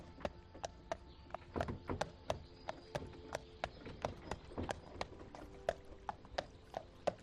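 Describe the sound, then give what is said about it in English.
Hooves of a pony pulling a trap trotting on a road, a steady run of many sharp clip-clop strikes in an even rhythm, fairly faint over a low rumbling wheel noise. “The pony trap slows outside your gate, and you step down with thanks as you watch it trot off down the road.”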